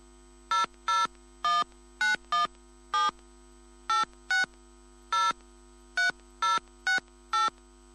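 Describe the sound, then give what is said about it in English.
Telephone keypad tones dial a number, 13 short, clear beeps in an uneven rhythm over a faint steady hum, with no voices. “Please enter the number you wish to dial.”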